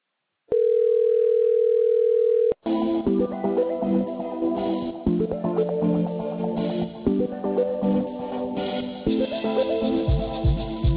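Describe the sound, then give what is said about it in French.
A telephone tone sounds while a call to a customer service line is being connected: one steady, unbroken tone for about two seconds, then a dense stream of changing, music-like tones. “Patientez, nous allons vous mettre en relation avec un téléconseiller.”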